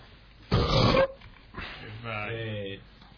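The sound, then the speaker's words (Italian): A loud, rough burp bursts out for about half a second, followed by quieter voiced sounds. “Fa bene ruttare, come ha detto il nostro amico Paolo Cevoli”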